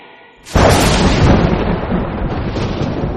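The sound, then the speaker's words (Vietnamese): A thunder sound effect for a stormy night: after a brief quiet hum, a sudden loud crack bursts in and rolls on into a broad, sustained rumble that slowly eases. “Trời chuyển, sấm chớp đùng đùng”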